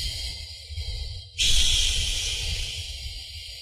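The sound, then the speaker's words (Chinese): A slow, long exhale through an open mouth, as part of a breathing exercise, starts abruptly as a soft, breathy hiss and then tapers gradually over about two seconds. “然后张开口，再进行缓慢的呼气，呼的时候越慢越好，长呼”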